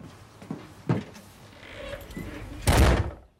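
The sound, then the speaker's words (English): A house door kicked shut by someone who has just let herself in with a key; quieter rustling movement leads up to one heavy thud near the end. “She lets herself in with the key, then kicks the door closed behind her.”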